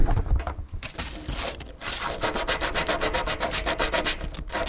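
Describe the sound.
A piece of white amber being rubbed: a rough, scratchy friction sound that turns into many quick, regular back-and-forth strokes, fairly loud and steady, with no talk.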